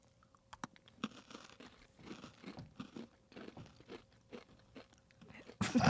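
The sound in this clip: Crunchy chocolate cookies being bitten and chewed, giving many small, faint crunches and crackles in an uneven rhythm, ending in a louder burst of rustling.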